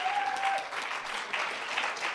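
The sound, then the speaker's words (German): Audience applause for the people seated on stage at a live role-play event: dense, steady clapping that holds an even loudness for the whole stretch. “Das war quasi jetzt der Applaus für euch außerhalb der Rolle.”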